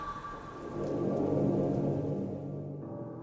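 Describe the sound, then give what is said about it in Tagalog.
Heavy rain pours steadily as a deep, rolling rumble of thunder swells through the middle and eases off toward the end, loud and continuous with no voices. “Kahit malakas ang ulan sa labas na sinasabayan pa ng malalakas na kulog, ay nadinig ko pa rin yun”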